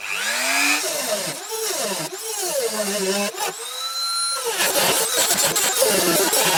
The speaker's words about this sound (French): Je fais toute la tête au Dremel. Elle dépasse quand même bien. Hein. Puis c'est une tôle derrière. Allez, Dremel.